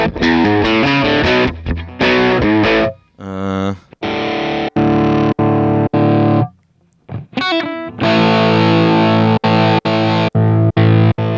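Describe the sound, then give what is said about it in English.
Electric guitar played through several different amps, heard as distorted chords and single notes in short bursts. The tone shifts between passages, with brief pauses and a few abrupt stops. “So I'm going through all the amps here. They all sound nice.”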